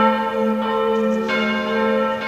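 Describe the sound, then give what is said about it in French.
Church bells ring with bright, sustained metallic tones, a few fresh strikes layered over a long humming resonance. “Ouais, c'est bon avec les cloches là, vous n'allez pas en mettre à chaque fois que je parle d'église ou de chapelle, non?”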